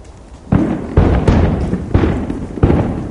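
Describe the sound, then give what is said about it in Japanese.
Fireworks exploding during a Disneyland fireworks show: five deep, booming bursts, each trailing into a rumbling tail, with no voices over them. “音すごいですね。 結構ね、 これディズニーランドの花火だっていうだけで多分ここの人たちみんな納得してる。”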